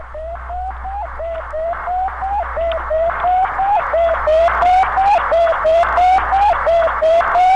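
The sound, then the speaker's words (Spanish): Radio signal from the Sputnik satellite, the first satellite put into orbit: a steady train of many short, evenly spaced electronic beeps with a warbling tone over a low hum, growing slightly louder toward the end, with no voices. “Vale, esto es el sonido de un satélite que sabemos que es un satélite.”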